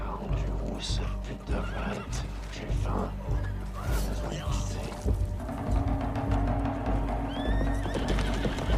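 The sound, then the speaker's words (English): Horses whinny and gallop off in a scene with horseback riders. Loud neighs ring out over clattering hoofbeats and a few sharp crashes, with voices mixed underneath. “The horses gallop off.”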